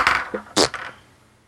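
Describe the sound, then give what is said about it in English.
Dice are rolled, giving a few quick clattering knocks and rattles in a short burst. The sharpest strike comes partway through, then the sounds fade into quiet. “I'm going to roll the dice again.”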